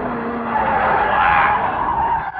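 Tires squeal as a car skids around a curve on a wet road, one continuous loud screech held for about two seconds with a steady tone and no voices.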